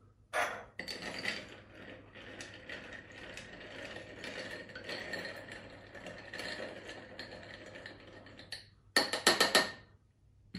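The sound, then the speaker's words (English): Ice clinks and rattles as an orange-bitters cocktail is stirred in a glass, a steady soft jangle lasting several seconds, then a brief pause and a louder burst of clinking near the end. “I'm going to give that a little stir.”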